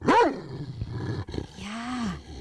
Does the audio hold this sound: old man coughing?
no